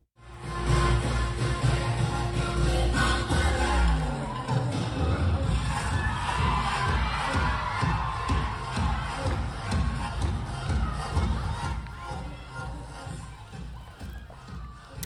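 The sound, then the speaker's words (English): An audience cheers and shouts throughout a school performing arts students' choreographed dance performance, with a loud, continuous wash of crowd noise and scattered whoops. “So I wanted to play a bit of that audio because we get a sense of the audience reaction.”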